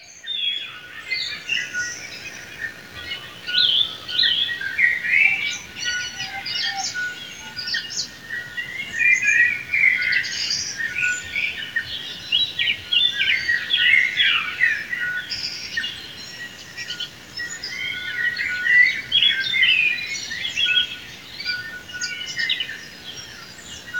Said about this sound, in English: And I think it might have actually been bell birds.